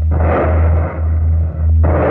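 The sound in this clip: A loud, dense roar of gunfire in a radio drama's naval battle. The rumble is continuous and low-heavy, with a couple of brief dips.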